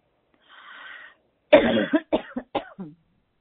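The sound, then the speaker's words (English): A person clears the throat during a vocal warm-up exercise. A soft breathy sound comes first, then a loud harsh rasp, then four short forceful bursts in quick succession. No other sounds are heard. “So let's do it one more time, and let's clear a little more in the throat.”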